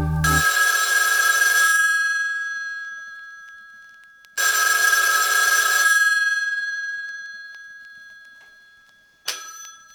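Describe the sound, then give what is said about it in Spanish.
A telephone bell rings in two long, loud metallic bursts, each trailing off into a fading ring, and a third ring starts just at the end. “Take your phone off the hook. Somebody might call during the next half hour or so and interrupt your fun.”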